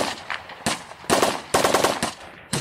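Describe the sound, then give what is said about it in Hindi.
Enemy machine gun fire in a 1971 war battle, heard as several sharp, rapid bursts of loud rattling shots separated by brief gaps. “दुश्मन की गोलियों ने major Hoshiyar Singh को जख्मी कर दिया।”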